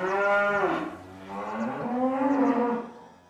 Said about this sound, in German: Und dann gehen wir weiter zu einem zweiten riesigen Stall, dort, wo die Rinder ausgemästet werden, bis sie ein anständiges Schlachtgewicht haben. Es sind prächtige Angus-Rinder, eine schottische Rasse